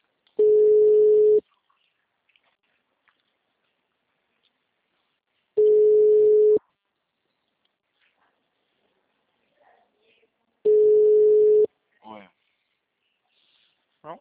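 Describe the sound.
A telephone ringback tone: three steady, mid-pitched tones, each about a second long, separated by long silent gaps of several seconds.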